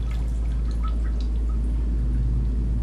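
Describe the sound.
A man urinates into a toilet. A steady trickling, pouring stream of liquid runs continuously over a strong, constant low rumble.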